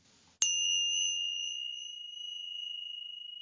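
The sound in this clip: Small two-inch hand cymbals struck once, ringing out in a pure, high, bell-like tone that sustains with a gentle pulsing shimmer and decays slowly.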